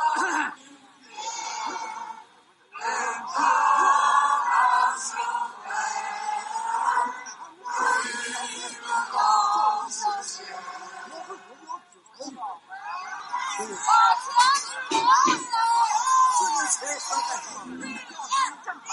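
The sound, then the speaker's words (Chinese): A crowd of protesting retirees gathered in a city square sings the Internationale raggedly and out of step, with shouts mixed in. The mass of voices runs almost continuously, broken by a few short pauses. “其中有视频中可以听到不很整齐的国际歌声和有人呐喊。”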